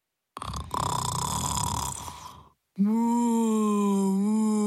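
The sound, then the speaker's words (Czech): A spotted cow snoring in deep sleep: a long, rough, raspy inhale, then after a brief gap a sustained low, droning groan-like exhale. “Rozléhalo se doširoka. A v taktu chrápání se kropenaté boky krávy nadýmaly a splaskovaly.”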